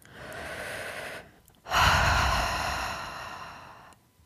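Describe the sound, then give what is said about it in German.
Deep, deliberate breathing during a guided relaxation exercise: two long airy breaths, the first steady and softer, the second louder and longer, swelling quickly and then slowly fading out, alone without talk. “atme dreimal bewusst tief ein und aus”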